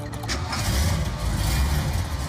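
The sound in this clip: Loud, deep engine rumble from a Dodge Ram pickup truck, holding steady and dense throughout with no pause or break.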